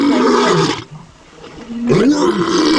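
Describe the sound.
A lion roar of the kind once used as the voice of a dinosaur in early monster films. Two loud, deep roaring bursts with a rough growling edge, split by a brief quieter gap.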